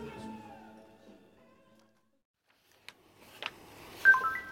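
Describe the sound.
A mobile phone text message alert sounds near the end as a few short, bright electronic tones. A faint click or two comes just before it, after a stretch of near silence.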